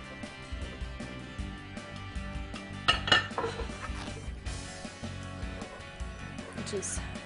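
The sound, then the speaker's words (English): A knife slices cold bacon for crisping in a pan, making soft knocks and scrapes against a board, broken by a few sharper metallic clinks of cutlery and cookware. “So we're gonna get this bacon crisping up in this pan over here. Just need to slice it.”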